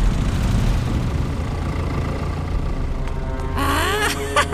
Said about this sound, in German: Die Dino-Trucks fahren in die Wüste.